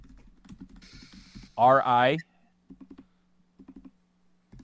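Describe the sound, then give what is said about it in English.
Typing on a computer keyboard: faint, irregular clusters of soft key clicks, briefly broken by a loud short vocal sound, then a few more sparse taps. “I need you to type this shit, all right?”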